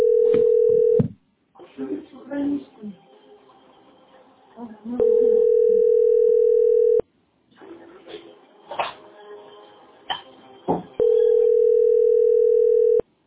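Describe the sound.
A telephone dial tone plays as a call is placed, sounding in three long, steady stretches with voices talking in the gaps between them.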